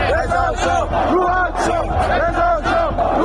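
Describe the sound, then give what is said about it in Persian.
Angry football spectators in Isfahan chant slogans in loud, rhythmic unison, their repeated phrases rising from a dense crowd. “تماشاگران عصبانی اصفهانی که به این درخواستشون احترامی گذاشته نشد در ادامه شعار رضا شاه روحت شاد سر دادن.”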